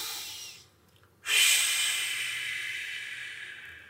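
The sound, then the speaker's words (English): A slow, deep breath taken as a stress-relief exercise: after a near-quiet start, one long airy hiss swells suddenly and then fades gradually over several seconds, with no voice. “And so what you do is you force a slow in and out breath.”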